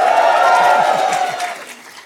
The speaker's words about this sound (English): big crowd here at Fordham Law School, and they're excited.